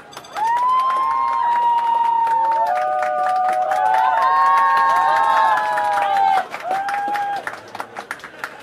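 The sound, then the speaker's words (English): A comedy club audience applauds and cheers to welcome a comedian, a dense, steady wash of clapping and shouts lasting about six seconds before it drops away to scattered claps. “we're gonna take to the stage here at the A2S Comedy Club, and we're going to put our hands together and give a warm welcome to our resident comedian, Stephen Dodd.”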